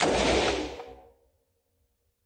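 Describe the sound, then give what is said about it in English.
A semi-automatic AR-15 rifle firing in single shots: one loud, broad blast rings out and fades away over about a second, and after a short silence the sharp onset of another report starts right at the end. “Now, those are single shots.”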